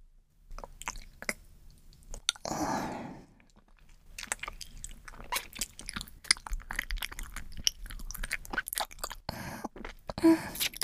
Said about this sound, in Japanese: ネトネトひっついてくるから、よだれと混ぜて噛んでみるね。